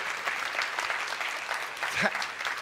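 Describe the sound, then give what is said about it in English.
A church audience applauds the worship team with steady, dense clapping that holds at an even level from start to finish. “can we just show some appreciation to the worship team that just led us into the presence of God?”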